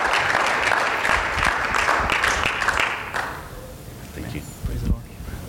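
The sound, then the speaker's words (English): An audience applauds to welcome a speaker at a Friday night church service in Watsonville, California. Dense, steady clapping lasts about three seconds, then fades into quieter room sounds with a few scattered thumps. “why don't we put our hands together as I welcome up Brother Jeremy as he comes up and shares here this beautiful Friday night”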